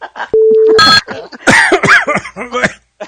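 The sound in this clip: Someone coughs after something went down the throat. A brief steady electronic tone comes first, then a harsh burst of coughing and several rough, voiced hacks and sputters.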